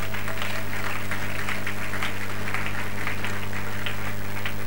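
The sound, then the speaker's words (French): Applause from a church audience after a Bible reading: dense, steady clapping that holds at an even level for the whole stretch over a faint low hum. “Est-ce qu'on peut acclamer cette parole de Dieu?”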